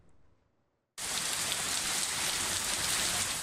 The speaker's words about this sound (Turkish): Sağanak yağış birçok kente etkili oldu ve şiddetli fırtınada çatılar uçtu, araçlar zarar gördü, dereler taştı, görüntüler var.